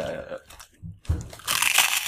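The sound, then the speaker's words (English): Crunching bites of crinkle cut fries from a discount market, a few loud, crisp crunches with chewing noises between them, close and without talk. “Crinkle cut fries that I got from some discount market down the street. Man, now I'm hungry. Bro, this just turned to ASMR. I didn't know we were doing an audio mukbang.”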